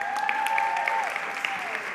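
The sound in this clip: Audience applause for children after their performance at a Christmas gathering, a steady, dense wash of clapping that stays fairly loud and even for the whole stretch.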